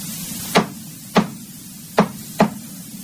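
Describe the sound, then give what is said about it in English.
Hammering as a staple and hinge are fastened onto a desk drawer: four sharp, ringing blows at uneven intervals over a low steady hum, with no talk. “putting a staple and hinge on a desk drawer, preparing to put a padlock on it.”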